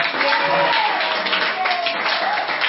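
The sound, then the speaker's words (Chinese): Students in a lecture hall give a round of applause for the back row, a dense and continuous patter of many hands clapping at a fairly loud, even level. “哎，后面那一排的，你们得到大家的掌声。”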